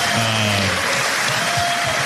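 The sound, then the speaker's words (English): An audience applauds at a community youth event with steady, dense clapping throughout. A brief whistle-like tone sounds near the start. “Round of applause again.”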